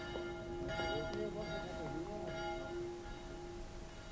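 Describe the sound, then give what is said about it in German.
A small bell rings on the piazza of Meolo, an Italian village. Its metallic tone repeats steadily over a constant background hiss, and the strokes blend into a continuous ringing. “Diese kleine Glocke hörte ich, als ich über die Piazza in Meolo ging”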